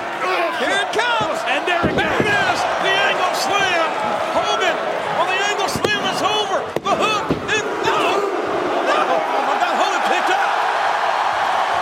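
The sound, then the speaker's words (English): Body slam of a wrestler onto the ring mat in an angle slam at a professional wrestling event. Heavy thuds hit amid a loud, roaring crowd, with voices talking throughout. “He's about to set up for that angle slam. Here it comes.”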